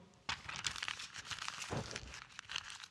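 A sheet of clean, stiff paper is crumpled by hand, giving a soft, continuous crackling and crinkling with a few sharper crunches scattered throughout, fairly quiet and heard alone.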